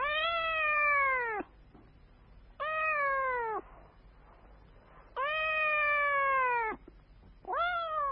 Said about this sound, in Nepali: ऊ म्याउ म्याउ गर्दै छाउराहरू भएको धनसारमा गयो।